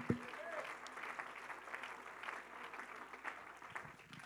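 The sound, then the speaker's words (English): Church audience clapping their hands during a Sunday evening service, a soft, steady patter of many hands that continues without a break. “In Jesus' name, can we clap our hands unto the Lord?”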